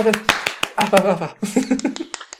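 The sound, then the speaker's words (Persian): Several people clap their hands in quick, uneven claps under cheerful talking and voices. “خوش ما دست بزنیم”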